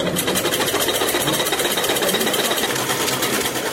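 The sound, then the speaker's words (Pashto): A few sewing machines run in a tailoring workshop, giving a rapid, even mechanical whirr of stitching pulses that stays steady and fairly faint throughout, with no talk. “په دې خیاطي کارخونه کې چې یو وخت ګڼ شمېر ماشینونه چلیدل اوس یوازې څو محدود ماشینونه فعال دي.”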